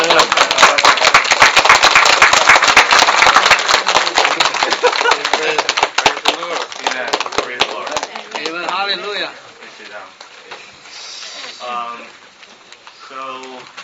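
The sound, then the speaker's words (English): A church audience applauds to welcome returning members, with dense, loud, steady clapping for several seconds. The clapping then thins out as a voice and other talk take over. “from Piscataway, from Baptist Ridge, stand up and give them a round of welcome back”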